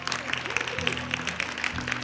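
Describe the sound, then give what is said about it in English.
A church audience claps as a praise offering, a steady, regular beat of claps over a low, sustained backdrop, with voices present. “Some of you, do you know how to clap? Come on, stand up and give them a praise offering.”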